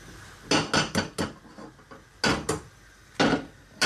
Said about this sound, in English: So this pan heats up real quick, which is great. So I've got two eggs here. I'm gonna crack them into my pan.